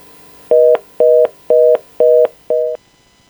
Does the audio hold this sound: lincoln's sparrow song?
no